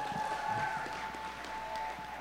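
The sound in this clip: Audience applause welcoming a speaker onto a stage, a dense, steady wash of clapping that fills the whole clip, with a faint held tone running underneath.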